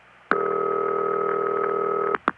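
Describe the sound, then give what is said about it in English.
A US Bell System ringback tone of the kind called City Ring: one long, steady, dull buzzing tone of nearly two seconds, followed at the very end by a brief blip of the next ring. “Well, this is the ring that the phone freaks called City Ring. It's very dull.”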